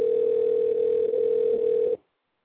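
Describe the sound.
A telephone call tone before a voicemail greeting: a loud, steady, unbroken tone at one pitch for about two seconds, then abrupt silence.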